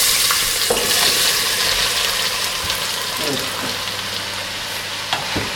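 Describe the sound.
Bananas frying in very hot oil, giving a loud, continuous crackling sizzle with a few brief stirring scrapes scattered through it.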